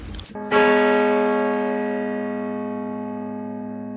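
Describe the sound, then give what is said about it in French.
A church bell strikes the hour at ten o'clock. One loud, deep strike comes after a brief clatter, then rings on in a long, slowly fading hum of layered tones. “C'est le guet. Il a sonné 10. Il a sonné 10. Je viens d'annoncer 10 après le 10e coup.”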